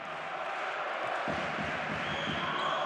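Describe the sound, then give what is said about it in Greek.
A volleyball serve during a Panathinaikos match, heard as dull ball thumps under a constant loud roar from the crowd. “Ο Σιδηρόπουλος θα κάνει το δεύτερο συνεχόμενο σερβίς του.”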